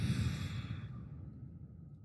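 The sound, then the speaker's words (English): A single deep meditative breath is exhaled as a long, breathy rush that starts fairly strong and slowly fades over about two seconds, with no talking. “take a big, meditative, deep breath on the count of 3, 1, 2, 3. Inhale. And exhale.”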